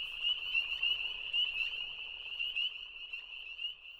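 A chorus of frogs croaking, a dense, steady, high-pitched trilling that continues without break, with no voices.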